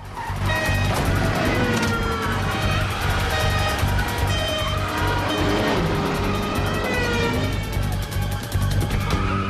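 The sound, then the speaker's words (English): Police cars speeding off with sirens wailing: engines roar over a dense, continuous wash of sound, and gliding siren tones rise and fall across the whole stretch. “Cops run to cars and speed off.”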